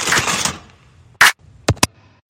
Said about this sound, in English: Let me get you some aluminum foil.